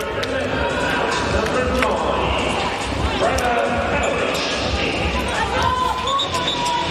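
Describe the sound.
A ball is bounced on the court before a volleyball serve, giving a few dull thuds under continuous background noise and voices.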